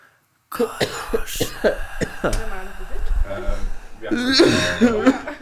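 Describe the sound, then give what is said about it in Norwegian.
Several sharp, abrupt coughs in quick succession, loud and mixed with people talking, with busier vocal sounds toward the end. “Det hostes.”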